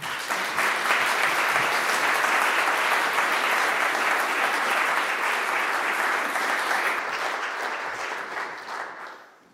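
Warm, sustained applause from an evening lecture audience greeting a professor, loud and even for most of its length before tapering off in the final second, with no voices.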